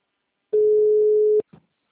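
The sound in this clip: A telephone tone after a dropped call: one steady, mid-pitched beep lasting just under a second, cutting off sharply and followed by a brief faint sound.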